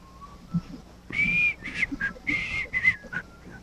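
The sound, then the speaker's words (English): A woman whistles the theme tune of an old television sitcom, a bright, clear melody of short sustained notes in several quick phrases, with no other sound. “But if you start whistling that song,”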